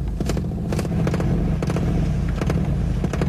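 A car named Christine rumbles with its engine running, a steady low throbbing drone broken by sharp clattering ticks and rattles throughout.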